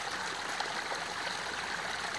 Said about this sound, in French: Imaginez ce ruisseau de montagne qui se déverse